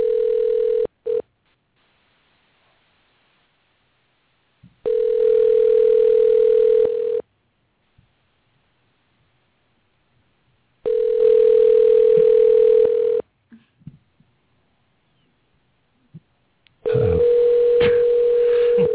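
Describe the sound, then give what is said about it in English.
Telephone ringback tone while a call is being dialed: a steady, even hum sounds in long pulses separated by silent gaps, repeating at regular intervals, with the last pulse cut off at the end. “All right, here we go. We're dialing him in.”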